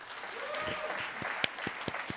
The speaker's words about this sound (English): How many of you received a memo recently? Applaud if you've received, yes.